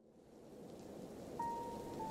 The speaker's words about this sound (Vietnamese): Bên ngoài trời, gió thổi càng lúc càng mạnh, mưa to gió lớn thổi tới ùn ùn.